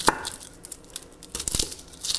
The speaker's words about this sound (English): Just chopping these up in smallish chunks, but not going crazy.